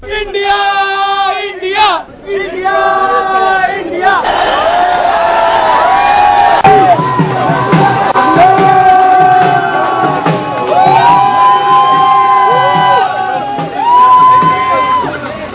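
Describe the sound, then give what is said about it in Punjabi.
A large crowd of cricket fans at Delhi airport cheers to welcome the World Cup-winning Indian team. Loud shouts, whoops and chanting voices run continuously throughout. “ਜੇਤੂ team ਦੇ ਸਵਾਗਤ ਲਈ Delhi airport ਤੇ cricket ਪ੍ਰਸ਼ੰਸਕਾਂ ਦੀ ਭਾਰੀ ਭੀੜ ਦੇਖਣ ਨੂੰ ਮਿਲੀ।”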